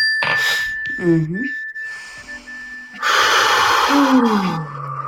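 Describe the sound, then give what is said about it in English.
Deep breathing during a mindfulness exercise: loud, breathy inhales and a long exhale, mixed with voiced sighing sounds that slide in pitch. “Doesn't that breath feel good?”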